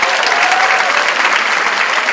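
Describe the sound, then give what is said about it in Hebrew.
Audience applause at a televised gathering, a steady, dense wash of clapping that holds at an even loudness for about two seconds with no talk over it. “איפה כפיים?”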